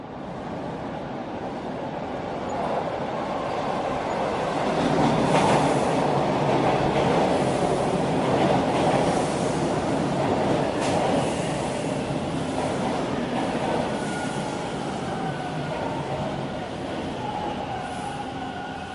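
A metro train rides along the rails in a loud, continuous rumble with a faint clickety-clack and a broad hiss that swells and eases slightly over the ride.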